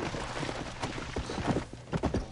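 A donkey runs away in a video game with rapid clip-clop hoofbeats. Many quick hits follow one another in an uneven running rhythm over a continuous background hiss.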